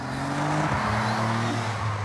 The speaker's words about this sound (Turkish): V6 motor, çift egzantrikli 350 beygir gücü. Güzel düz bir yoldayım ve nasıl gittiğini bilmem gerekiyor.